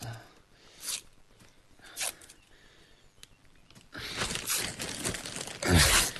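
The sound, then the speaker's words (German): Adhesive tape being torn and wrapped around someone's legs at the thighs, knees, calves and ankles: two short ripping bursts, then longer, louder continuous tearing and crinkling. “Du musst auch um die Oberschenkel, Knie, Waden und Knöchel verkleben. Spar bloß nicht am Klebeband, das können wir neu besorgen.”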